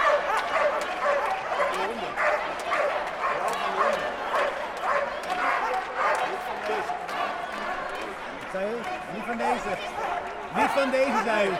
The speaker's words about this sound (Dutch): Ja, de honden worden op ons gericht nu. De honden worden op ons gericht, hè?